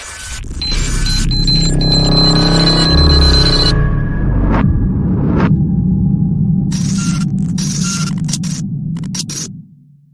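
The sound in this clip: A programme's timer sound effect plays loudly: a dense layer of bright, ringing electronic tones mixed with noisy bursts runs for nearly ten seconds, then stops abruptly.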